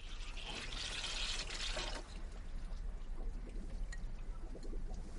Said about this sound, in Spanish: Va hacia una pequeña cocina. Lava un cuenco en el fregadero.